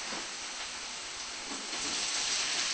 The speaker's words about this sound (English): So let's throw in the zucchini.